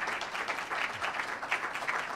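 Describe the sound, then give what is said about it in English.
An audience applauds a guest speaker with a soft, dense, continuous patter of many hands clapping at once. It holds at an even level throughout. “And now please join me in giving a big round of applause to our guest, Frank.”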